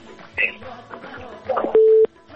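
Telephone tone after a phone call dropped: one steady mid-pitched beep lasting about a third of a second, loud and clean, following brief muffled sounds.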